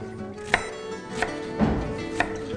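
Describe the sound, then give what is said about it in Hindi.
A knife cuts a bell pepper into cubes, with four crisp chopping strikes on a board at an uneven, unhurried pace. “Vegetable के लिए मेरे पास एक अदद शिमला और उसको थोड़ा सा क्यूब फॉर्म में काट लेना है”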